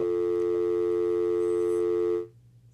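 A telephone busy tone sounds after a radio call-in listener's line drops: one steady, loud, buzzing tone holds for about two seconds, then cuts off abruptly into near silence.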